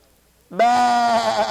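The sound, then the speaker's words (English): A human voice imitates a sheep bleating with a single loud, wavering 'baa' held for about a second after a short silence. “Some of those fat sheep begin to bleat.”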